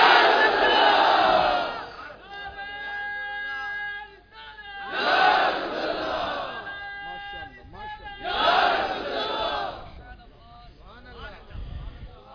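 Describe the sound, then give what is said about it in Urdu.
A crowd at a religious gathering shouts the slogan Nara-e-Risalat. It comes as three loud surges of massed voices, with quieter calling between them. “اس طرح مجمع ہو یا دنیا ہو آخری سنی تک ہم آواز لگاتے رہیں گے نعرہ رسالت.”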